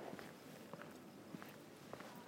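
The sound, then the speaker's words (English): Faint footsteps of a person walking at night along a street in Brisbane, Australia, on a Friday, heard as an irregular series of soft, quiet steps over a steady low background hiss, with no talking. “I'm currently walking to Tango. It's Friday night here in Brisbane, Australia.”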